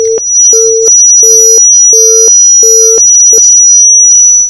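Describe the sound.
A telephone busy signal sounds on a call that fails to connect. It is a loud, mid-pitched beep repeated at an even rhythm several times, heard alone, ending in a short clipped tone.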